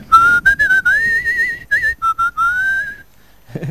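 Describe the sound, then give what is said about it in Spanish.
A person whistles a film theme melody solo in a clear, pure tone, mixing short detached notes with longer sliding phrases that waver slightly in pitch before trailing off. “Bien interpretado por el violín, que igual se atisba así un poquito de silbido en el tema, Ángel. Es un tema silbable, perfectamente”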